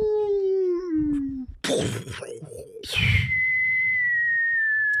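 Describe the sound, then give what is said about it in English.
People vocally imitate missile noises after a baseball home run: a falling whistle, then a burst of rough, explosive mouth blasts, then a long, high whistle gliding slowly downward. “For people on audio, they're making their usual missile noises every time Sid hits a homer.”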